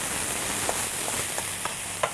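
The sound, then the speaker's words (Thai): Steady, loud sizzling of rice being stir-fried with oyster sauce, a constant hiss broken by a few soft stirring scrapes. “แล้วก็น้ำมันหอยผัดให้เข้ากัน”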